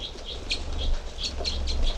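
Birds in an enclosure cell, three of them together, give soft wing flaps and brief high chirps at intervals over a low steady rumble.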